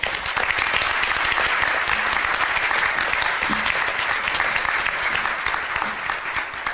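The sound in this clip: Sustained applause from an audience welcoming the chair of the Quadruplicity 2009 event: dense, steady clapping at an even loudness throughout, with no voices over it.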